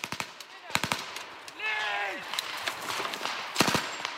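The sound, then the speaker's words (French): Return gunfire during a NATO military exercise in Estonia: a few sharp, isolated shots and quick bursts ring out, with a brief voice in between. “Ce jour-là, des tirs de riposte. L'heure est grave. Le territoire balte fait face à une invasion.”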